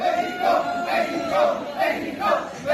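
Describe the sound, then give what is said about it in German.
Mexican athletes arriving for a large multisport event celebrate at Berlin airport, a crowd cheering and chanting together in loud, repeated rhythmic bursts. “Die Mexikaner feiern sich am Berliner Flughafen.”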